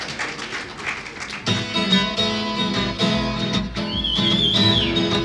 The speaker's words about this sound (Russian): Я свистеть тоже умею.